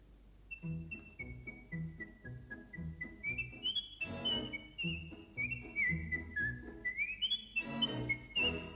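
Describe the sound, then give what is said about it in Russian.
A boy whistles a lively, clear, high tune whose phrases step down and then climb higher, repeating a few times over quieter, rhythmic low tones. “Слышите, какой свист? Прямо соловей. А? Как свистит!”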